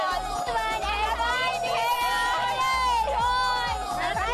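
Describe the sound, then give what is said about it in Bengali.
A dense crowd celebrates New Year's Eve on Park Street in Kolkata, with continuous overlapping shouts, cheers and chatter at a steady, loud level throughout. “সন্ধ্যে থেকে অল্প অল্প করে ভিড় বাড়ছিল, রাত যত গভীর হয়েছে পাল্লা দিয়ে বেড়েছে উৎসাহী মানুষের ভিড়।”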